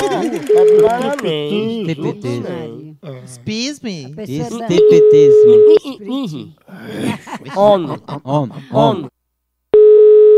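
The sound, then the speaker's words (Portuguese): Telephone ringback tone heard while placing a call: three steady, even-pitched tone bursts, the last cut short, with stretches of voice between them. “Tô ligando agora pra Nailson.”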